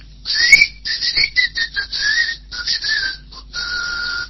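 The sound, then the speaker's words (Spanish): Human whistling imitates snakes whistling upward to hold an egg aloft in the air, a run of many short, fairly loud, mid-to-high whistled tones in uneven bursts with no talking. “producían un huevo y lo sostenían en el aire emitiendo silbidos. Chiflaban para arriba a la serpiente”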